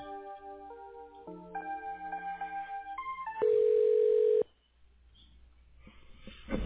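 Tones of a telephone call being transferred: a stepped series of clean electronic beeps changing pitch, then one louder sustained tone that cuts off into near silence with faint rising noise.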